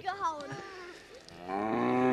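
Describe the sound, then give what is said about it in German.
Cattle mooing on a pasture: a long, low, drawn-out moo swells and grows louder through the second half, after a brief stretch of human voice at the start. “Die Kühe sind auch schon da.”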